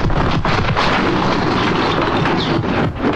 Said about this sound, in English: A massive explosion rocks the boardroom, shattering glass and throwing members to the ground.